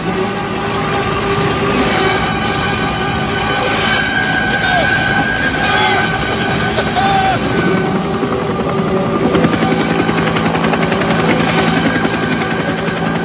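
Helicopters roar with chopping rotor noise in a war film scene, mixed with orchestral music and its sustained tones; the sound is dense, loud and continuous throughout.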